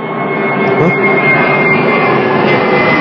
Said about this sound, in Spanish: Este, este avión como que pasó más bajo.